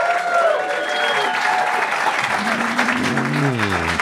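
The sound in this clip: A comedy club audience at a sold-out show claps and cheers in a steady, dense burst, and a man's voice begins speaking over the applause near the end.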